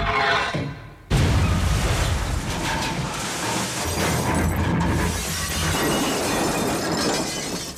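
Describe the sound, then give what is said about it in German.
A wrecking ball smashes into a dome as a radio-play effect: one heavy crash lands about a second in, followed by a long, dense roar of crumbling, rumbling debris. “Übersteht keine zwei Minuten, die Kuppel! Los! Und kommen Sie sofort raus da! Abrissbirne. Treffer 2.”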